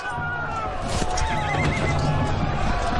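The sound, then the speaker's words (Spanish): A horse neighs in a historical drama with a soldier on horseback, its high wavering whinny rising over a dense, steady background, with clip-clop hoofbeats. “Uno de los Orsini observa desde su caballo.”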